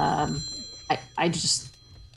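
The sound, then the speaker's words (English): A telephone bell rings in a couple of short, bright bursts, following a brief moment of speech at the start. “No, we're okay. The phone has been answered. We're okay.”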